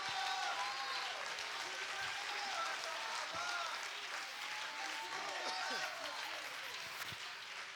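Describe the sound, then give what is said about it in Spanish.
Church audience applauding in praise during a Pentecost service, dense continuous clapping at a moderate level, with voices calling out and cheering over it throughout. “Put your hands together and give him praise. Dale un fuerte aplauso al Señor.”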